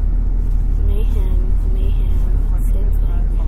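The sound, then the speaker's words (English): Motorbike engines in the motocross video game Motocross Mayhem, a steady low engine drone running continuously under people talking. “This is the motocross. Motocross mayhem. I'll drive home.”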